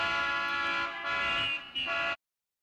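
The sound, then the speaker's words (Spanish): A car horn honks in one steady, loud, bright blare lasting about two seconds, dipping briefly twice before cutting off abruptly. “Bocina. Horn.”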